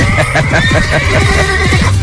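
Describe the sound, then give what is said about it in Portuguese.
Neighing of a small mare, a loud quavering whinny that wavers up and down through the whole clip with no voices. “Eu tô chegando na minha pangarezinha.”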